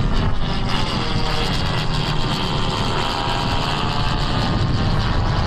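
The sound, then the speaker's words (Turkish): Steady, loud engine roar of an Akinci combat drone taking off from a runway in Çorlu, Tekirdağ, carrying guided munitions: a dense, continuous low rumble with broad hiss on top and no break. “Akıncı Tekirdağ Çorlu'daki pistten bu kez Roketsan'la STM yapımı Alpagut mühimmatıyla havalandı.”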